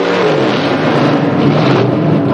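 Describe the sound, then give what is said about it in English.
A car engine revs in a loud, continuous roar that holds steady throughout, with no voices. “revs his engine. The cowboy follows suit.”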